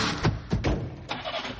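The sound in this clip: A car engine starts, cranking with a few sputtering bursts over a broad, noisy rumble. The sound is fairly faint and short.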